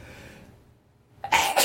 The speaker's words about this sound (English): that was a graphic sneeze on my part.